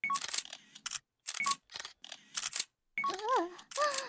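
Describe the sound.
Camera shutter clicks as photos are taken, coming in several quick bursts separated by short silences, with a voice sounding faintly near the end.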